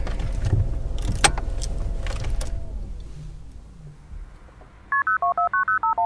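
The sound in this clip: Telephone keypad tones as a number is dialed to call a social welfare office: a brisk run of short, evenly spaced beeps at varying pitches, preceded by a fading mechanical rumble with a few creaks.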